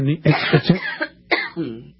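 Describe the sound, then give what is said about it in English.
A person coughs several times in quick, rough bursts, throaty and short, with a pause and a final hoarse cough, loud and alone. “Excuse me, I'm going to cough.”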